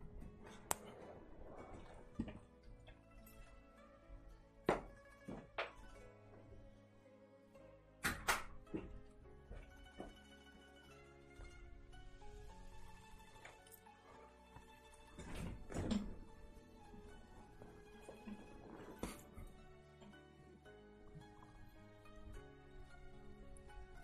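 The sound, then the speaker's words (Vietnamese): A door being closed, heard as faint, hollow thuds and knocks. A few sharp thumps are spread across the stretch, with quieter rattling and shuffling between them and no talk. “Các bạn đợi chút nha, mình ra đóng cửa cái,”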